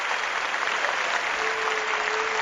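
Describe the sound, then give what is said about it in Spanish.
A football stadium crowd applauds a substitution, a steady wash of dense clapping that stays even in loudness throughout. “La ovación para Jalilovic, que jugó sus mejores minutos en el Molinón.”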